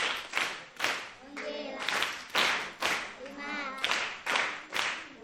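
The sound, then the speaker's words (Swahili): A school class claps for a pupil who answered correctly, with many strong, rhythmic hand claps in a steady beat. Children's voices chant in between the claps. “Haya, mpigeni makofi.”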